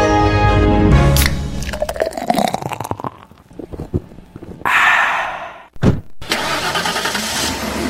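A car engine starts and the car sets off, driven by someone who has just been drinking; loud bursts of mechanical noise give way to a sustained rumbling roar, with no talk.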